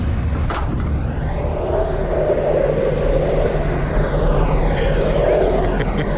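Twin propeller engines on an aircraft drone steadily, a loud, continuous low rumble with a broad whirring layer that swells and eases slightly over several seconds.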